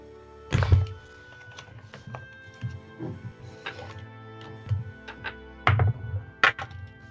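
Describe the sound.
Dice rattle and clatter on a table during a tabletop roleplaying game, with a few sharp thunks and light taps scattered through a faint hum.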